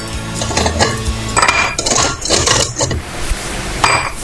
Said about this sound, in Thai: S99 เติมโซดาหน่อยนี่อะเติมแล้วก็เขย่าแล้วคนหน่อยมา